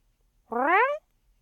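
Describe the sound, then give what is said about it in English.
A human voice imitates a cat's mew: one short, rising, tonal call of about half a second, standing alone against silence. “He mewed as his green cat eyes glimmered in the lamplight”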